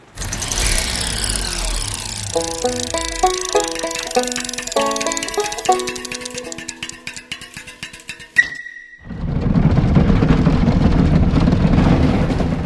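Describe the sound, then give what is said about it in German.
A bobsleigh speeds down its twisting track with a loud, steady, rushing roar. Before it, a passage of tonal music plays, then a brief high tone sounds. “Die Fahrt mit dem Bob ist schnell, ganz schön schnell. Und sie wird immer schneller.”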